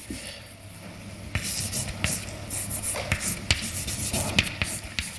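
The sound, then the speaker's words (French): Scratchy strokes and sharp taps of a lecturer writing an equation on a board during a physics lecture, many quick uneven marks in a faint, continuous run with no talking. “Alors, je vais l'écrire sur la même ligne.”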